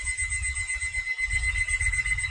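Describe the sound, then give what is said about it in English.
A 13-year-old alarm clock rings from inside a house wall as a continuous, steady, high electronic tone over a low rumbling noise, with no voices. “a 13-year-old alarm clock.”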